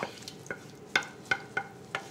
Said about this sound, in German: Mit dem Kochlöffel so ein bisschen durchdrücken.